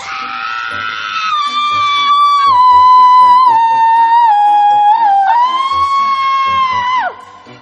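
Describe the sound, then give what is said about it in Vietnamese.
A person screams loudly in one long, sustained, high-pitched cry, held for about seven seconds with a brief wobble midway before it breaks off in a sharp downward drop. “Mày làm cái gì mà mày la như gà cắt cổ, như hổ lột da, như thằng cha mày chết đi sống lại ông ngoại mày đổ ruột thừa vậy?”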